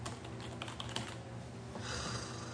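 Typing on a computer keyboard as a web address is entered: many soft, quick key clicks in an uneven rhythm over a steady low hum, fairly faint throughout.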